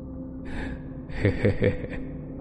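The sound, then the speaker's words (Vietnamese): A man stretching both arms overhead lets out a long yawn. It is breathy and fairly soft, swelling in the middle into a few pulsing voiced bursts before trailing off. “Hắn vươn hai tay lên trời, ngáp dài một cái.”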